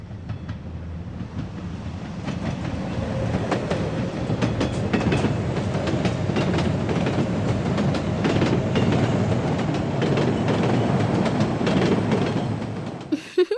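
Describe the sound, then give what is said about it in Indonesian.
A train clatters along the rails, its wheels giving a steady, rhythmic clickety-clack. The rumble fades in, holds at an even, moderate level for a long stretch, and stops abruptly at the end. “Membentuk barisan gerbong kereta api. Berjalanlah melingkar sambil menirukan bunyinya.”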